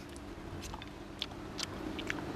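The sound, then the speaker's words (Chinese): Chewing on a bite of stir-fried bottle gourd with pork: a few faint, crisp bites and soft mouth sounds over a low, steady background hum. “这尝一下，我们今天做的葫芦菜，先尝一下这个葫芦炒肉”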